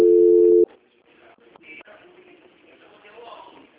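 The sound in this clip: A telephone transfer tone sounds as a call is put through: one loud, steady, low-pitched tone lasting well under a second. It then cuts off abruptly, and quieter voices and murmur carry on underneath.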